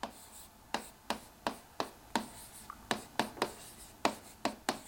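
Marker strokes on a board as someone writes in a different colour: many short, scratchy squeaks in an uneven rhythm, each a quick stroke with a slight tail, heard alone without talk.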